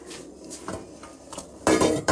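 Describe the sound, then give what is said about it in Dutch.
Metal clatter from a pot of boiling salted water as a lasagna sheet is laid in. A few soft knocks give way to a louder clanking burst near the end. “intussen is mijn andere pot met mijn water en zout ook goed aan het koken. En ik zal daar nog zo'n lasagneblad inleggen.”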